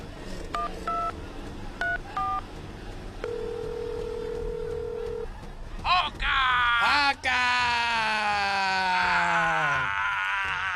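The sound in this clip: A telephone is dialed with a few short electronic keypad beeps, then a steady dial tone holds for about two seconds, followed by a loud, wavering, groaning voice.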